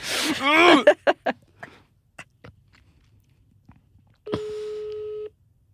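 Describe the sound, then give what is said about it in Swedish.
Ringback tone of an outgoing phone call: one steady, even tone lasting about a second near the end, following a short burst of voice and a few sparse clicks at the start. “hon kommer inte svara, det har gått tre. Det är så många signaler.”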